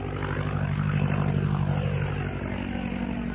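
An aircraft with an OX5 engine of about 85 to 90 horsepower flies overhead. Its propeller engine makes a dense, steady drone with low throbbing tones that lasts throughout.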